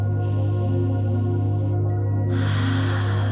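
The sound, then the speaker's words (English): A deep breath drawn in during a bedtime relaxation exercise: a long, airy rush of breath over a steady low drone, with a second breathy rush following a brief gap. “So let's take 3 deep breaths in.”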